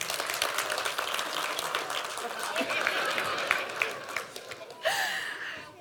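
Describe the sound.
Applause from a crowd for a child at a Christmas church service: dense, steady clapping that continues throughout, with a few sharper, louder claps standing out toward the end.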